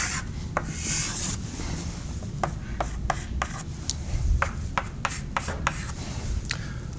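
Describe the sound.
Scratchy strokes of drawing on a board during a lecture on damped systems: many short, sharp rasping marks in an uneven rhythm over a steady low hum, with no talk.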